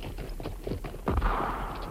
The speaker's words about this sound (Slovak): Zdá sa, že tu ozaj niekto strieľa a má odvahu vyrušiť slávneho učenca